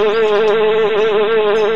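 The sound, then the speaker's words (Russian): A honeybee buzzes as it flies close, giving a loud, continuous drone with a gently wavering pitch that holds steady throughout, with no other sounds. “Мы медом пахнем, вот она к нам и подлетела. Пчелка, так это мы твой мед ели? Ну ладно, не жадничай, лети себе дальше.”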